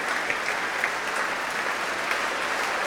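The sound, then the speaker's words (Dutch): A concert audience in Amsterdam applauds the trombones after a symphony performance. The clapping is faint, even and continuous throughout the short stretch. “Ja, groot applaus ook voor de trombones.”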